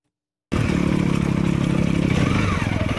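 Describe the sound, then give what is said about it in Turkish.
Off-road motorcycles climb a steep, rocky track in the Amanos Mountains, their engines breaking in abruptly after a half-second of silence and holding a steady, rough drone with rattling over it. “Osmaniye'de motosiklet tutkunları arazi motosikletleriyle Amanos Dağları'ndaki Keldaz Zirvesi'ne tırmandı.”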